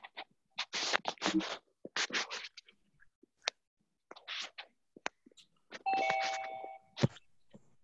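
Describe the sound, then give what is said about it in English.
A doorbell-style chime rings when someone joins an online meeting, heard as a short, quiet tonal ding near the end. Before it come scattered soft scratches and rustling clicks. “every time somebody joins, we're going to get a ring.”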